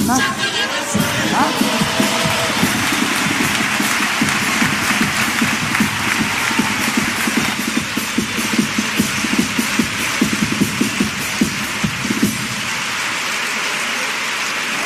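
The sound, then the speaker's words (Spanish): Audience applause at the Gran Teatro Falla after a chirigota group from Écija performs. A dense, rain-like roar of many hands clapping continues for about fifteen seconds with voices mixed in, easing slightly near the end. “Mira la reacción del público. Así responde el Gran Teatro Falla.”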